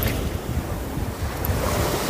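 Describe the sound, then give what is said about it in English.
Ocean waves wash steadily onto the shore in Thailand, a continuous roar of surf mixed with buffeting wind noise on the microphone, with no voices. “Sitting here by the ocean today, it makes me think,”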